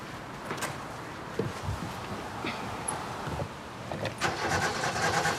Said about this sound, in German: Setz dich mal rein und probier mal anzulassen.